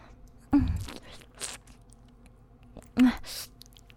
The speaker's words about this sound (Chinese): 我在吃香肠呢。有点辣。